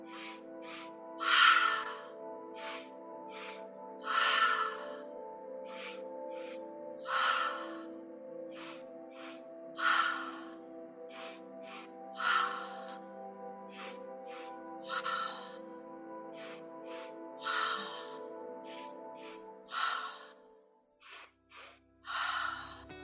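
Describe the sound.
Rapid, forceful fire-breathing exhales, part of a breathing exercise, come as short sharp puffs with stronger breaths at regular intervals, all over a soft, steady sustained musical tone.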